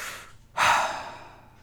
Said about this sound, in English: Let me take a breath.